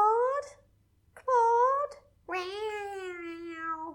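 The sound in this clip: A woman imitates a cat's meow with three drawn-out, whiny calls separated by short pauses. The third call is the longest and falls gently in pitch at the end.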